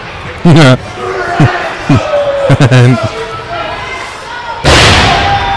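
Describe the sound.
Body slam of a wrestler onto the ring mat during a tag team match: one heavy, booming thud lands near the end, after bursts of shouting voices and crowd noise.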